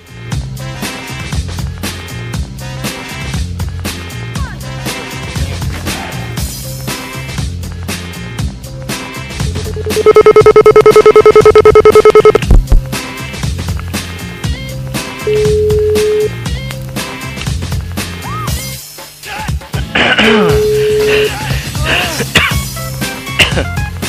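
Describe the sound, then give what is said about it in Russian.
Dialing a telephone number for a prank call to a subscriber on a local network: a long, steady dial tone, then short repeating ringback beeps, all over continuous background music. “Слободанет, Балунет, набираем следующий номерочек. Вот набираю вслух, как всегда, не говорю.”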